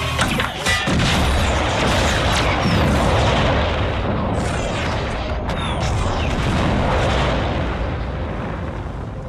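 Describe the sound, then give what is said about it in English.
Loud, sustained explosive roar as a cycler rifle shot blows up the base in The Mandalorian, a dense rumbling blast lasting throughout with a few sharp cracks. “Mayfield getting that last like, oh, I'm not leaving without, oh, using the cycler real rifle to blow up the base.”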